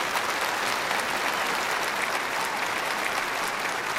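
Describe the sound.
Audience applause welcoming two guests on stage at a ministry program for returning war veterans: dense, steady clapping that holds at an even level throughout, with no voices over it.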